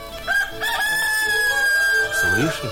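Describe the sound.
Rooster crowing: a single long, drawn-out crow held at a high pitch, followed by a brief voice-like sound at the end.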